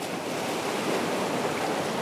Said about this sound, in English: But these waves aren't washing onto a natural beach in Lagos. They are slamming into a giant man-made rock wall.